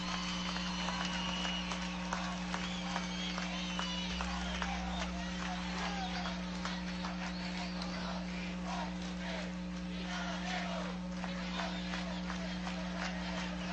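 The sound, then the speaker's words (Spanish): A crowd applauds at a public political event, with dense, continuous clapping and crowd voices over a steady electrical hum for the whole stretch. “Un aplauso para Chávez, que se escuche en el corazón de todo el pueblo.”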